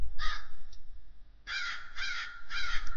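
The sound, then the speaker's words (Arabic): A crow caws in harsh, raspy calls: one caw and a faint short call, then after a pause three loud caws in quick succession. “بقالي أكتر من شهر بصحى على صوت غراب.”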